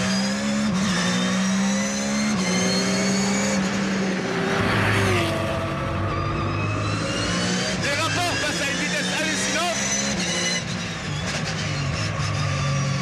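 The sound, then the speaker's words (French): A car engine revving hard to 9500 rpm gives a loud, sustained high-revving howl whose pitch shifts several times, with a faint tire squeal in places. “Moteur qui prend 9500 tours. Vous avez bien entendu, 9500 tours.”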